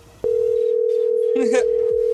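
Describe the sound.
A steady ringback tone plays on an unanswered prank phone call. The single unbroken pitch starts abruptly and holds for about two seconds, with a voice briefly heard over it.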